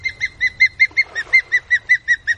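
An osprey calling: a rapid, evenly spaced series of many sharp, high, whistled chirps, each note clear and alike, repeated steadily throughout with no other voices.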